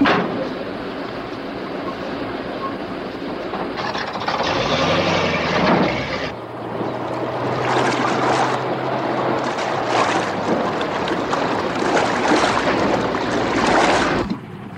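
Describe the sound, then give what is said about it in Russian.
A ZIL truck's engine runs and drives, with a loud, steady mechanical rumble, rattling and clanking throughout and a low droning hum through the middle stretch. “Водитель ЗИЛа садит Ивана в машину.”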